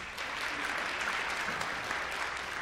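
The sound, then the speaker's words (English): Applause from a church audience welcoming a speaker at a morning service: steady, continuous clapping from many hands, even in level throughout without a break. “Y'all make Adam feel welcome and give him a hand.”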